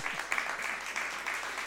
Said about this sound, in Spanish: ¿Qué se merece público presente? ¡Un aplauso, che!